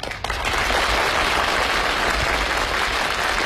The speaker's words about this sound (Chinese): 不可能啊，你听观众的掌声，掌声如雷呀